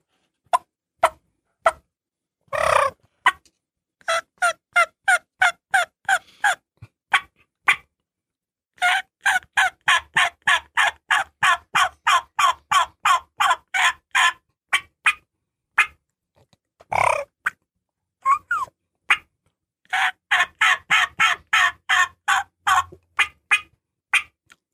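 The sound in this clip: Hunter's raspy turkey call: many rough, evenly spaced yelps in long runs, broken by pauses and a few louder single notes. The yelps are loud and sound alone, with no voices.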